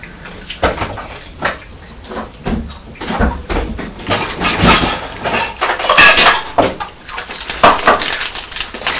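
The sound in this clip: Dishes clatter as someone rummages for a small bowl in a kitchen. Repeated loud knocks, clinks and scrapes of crockery and cutlery come in an irregular rhythm.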